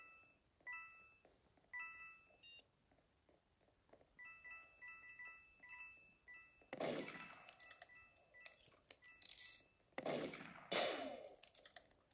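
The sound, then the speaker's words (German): Gunfire in the video game Roblox comes in two dense bursts of sharp shots, set among quieter electronic game beeps and tones, all fairly faint. “Okay, wird die ganze Zeit geschossen.”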